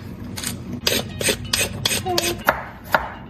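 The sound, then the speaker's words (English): Peeler rasping along a carrot in many short, quick scraping strokes at a fairly even rhythm, moderately quiet. “While you do that, I'm going to peel the carrot, okay?”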